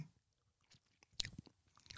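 Chewing and biting into food with remoulade while tasting it, with a few soft, crunchy bites spread across the moment, the louder ones coming in the second half, faint overall.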